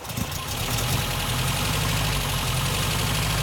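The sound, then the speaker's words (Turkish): Rough idle of a four-cylinder car engine running on only three of its cylinders, with a suspected spark plug fault. A loud, steady low throbbing continues unbroken through the whole clip. “Şu anda 4 silindirde çalışmıyor. Hayır. İlk seferde çalışıyor ama 4 silindirin yalnız 3'ünde.”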